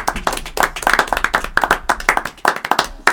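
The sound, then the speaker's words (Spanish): A small group claps to send off guests at the end of a program, with many distinct, sharp handclaps in a quick, uneven rhythm that stay loud throughout the three seconds. “Los despedimos con un aplauso y muchas gracias por venir.”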